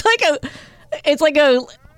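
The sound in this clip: A voice imitating a cat's meow with a couple of drawn-out, wavering vocal calls, each sliding in pitch and separated by a short pause, moderately loud and voiced.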